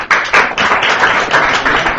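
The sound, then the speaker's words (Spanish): Audience applause for a government official introduced at a public event, heard as a dense burst of clapping lasting about two seconds. “Doctor Over, Fernando Medina Molar, aplauso para él.”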